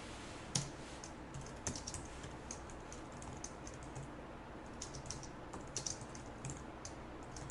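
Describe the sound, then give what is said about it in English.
Keys clatter on a computer keyboard as a line of code is typed, a faint, quick, irregular run of soft clicks over a low hiss, with no voices. “Let's go ahead and remove it And let's retype this entire line of code.”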